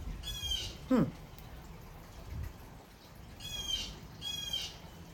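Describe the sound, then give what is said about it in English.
Birds calling: one loud, sweeping squawk near the start and a few bursts of high, rapid chirping later, over a low rumbling background. “Love hearing the birds. It's good to hear one loud one.”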